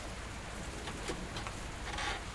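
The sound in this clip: Rain falls heavily in a steady, even hiss that stays faint and continuous throughout, with no voices.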